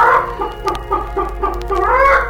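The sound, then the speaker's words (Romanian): A hen clucks in a quick, uneven series of short, throaty calls, loud and alone over a faint low hum. “Baba avea o găină”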